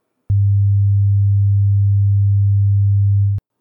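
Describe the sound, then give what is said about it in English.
A steady 100 hertz tone converted from a gravitational wave: a loud, low, unchanging hum lasting about three seconds, with a small click where it starts and another where it cuts off. “Converted into sound, if we were to take 100 hertz as a sound wave, that's actually audible to humans. Check this out.”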